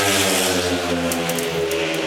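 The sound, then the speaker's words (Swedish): Speedway motorcycles roar out of the start gate at a Swedish race, a loud, steady, high-revving engine drone with sustained buzzing harmonics throughout. “men ut från startgrinden så ser det faktiskt ut som att det är de båda Västerviksförarna som är snabbast iväg. Är de det även ut ur kurvan? Det är de.”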